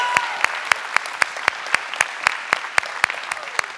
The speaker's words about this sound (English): So if you are here in person, would you put your hands together and let's get loud and welcome in our online family.